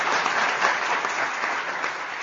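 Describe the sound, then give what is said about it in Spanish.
Sustained applause from participants at a clergy assembly: dense, even clapping that holds at a steady level throughout, with no voices standing out. “Con este sentido aplauso, todos los participantes en la Asamblea del Clero se sumaban a las palabras de reconocimiento”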